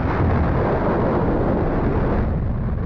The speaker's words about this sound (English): That was a rocket. Anyway. I missed that. That was an electric rocket. Yeah, it was an electric rocket.